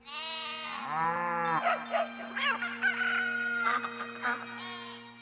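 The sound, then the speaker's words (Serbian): Farm animals calling together, bleating, bellowing, barking, meowing, crowing and cackling in a dense, overlapping jumble of many loud, tonal cries with a rooster's crow and sheep-like bleats standing out. “Ja ću zameketati, bik nek zariče, pas nek zalaje, mačka nek zamjauče, petao nek zakukuriče I guska nek zagače.”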